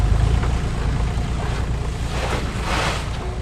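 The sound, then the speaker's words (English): Four-wheel drives rolling into a dry, dusty racetrack in central Queensland make a continuous low rumble and rushing noise with gusty wind buffeting, steady throughout with no distinct separate events. “The four-wheel drives roll into the Dingo racetrack one after the other, kicking up the dry brown dust that you can't escape in this part of central Queensland.”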